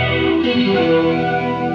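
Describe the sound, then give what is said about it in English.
Sustained guitar tone run through a classic flanger effect, a thick, distorted chord that rings steadily and loudly, with a shimmering, swept coloration throughout. “I love a classic flanger because they're not as harsh as new ones, you know? So you get to really just... some cool tones,”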